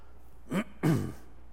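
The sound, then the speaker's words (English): Two short, rough throat clears from a man, separated by a brief pause, the second longer and fuller, with no speech around them. “I have no idea why my throat is doing this.”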